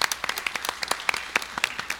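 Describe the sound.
Applause from a live audience at St. Catherine of Siena: many separate sharp claps from a modest crowd, individual hand strikes standing out in a quick, uneven patter that keeps going throughout.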